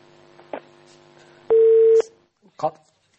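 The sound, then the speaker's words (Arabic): A single steady electronic telephone tone on a radio call-in line, clear and loud for about half a second, with brief speech just before and after it. “معنا اتصال من تونس”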